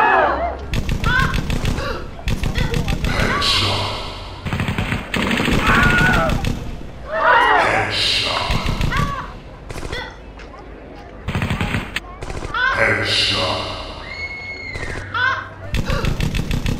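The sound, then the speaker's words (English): Bursts of automatic gunfire ring out during a drive-by shooting in a video game, many rapid shots arriving in several loud volleys separated by short gaps, with voices talking and shouting over parts of it. “This is officially a drive-by. Happy shopping, bitches! Oh my god, they're opening fire!”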